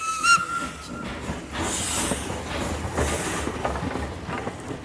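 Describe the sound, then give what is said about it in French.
A steam train leaves a station from a freight platform, with a short whistle tone at the start followed by loud bursts of steam hiss over a steady rumbling noise. “Le train quitte la gare et traverse certains des villages d'où viennent les prisonnières.”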